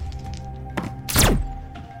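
Dice rattle and thunk on a table during a solo tabletop game: a few short knocks, with a louder clatter in the middle, and no voices.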